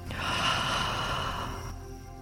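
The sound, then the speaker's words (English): A single deep breath drawn in during a guided relaxation exercise, a steady breathy rush lasting about one and a half seconds before fading, heard alone with no talking. “And another deep breath in.”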